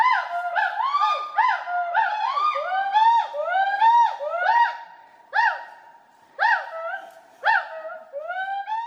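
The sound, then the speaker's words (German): Gibbons call to one another in overlapping mating calls, a lively duet of loud, rising whooping hoots with bright, ringing overtones. The calls come thick and fast at first, then grow sparser toward the end. “Und ich habe dir mal einen Sound mitgebracht, wie sich das dann anhört, wenn man Gibbons miteinander kommunizieren hört.”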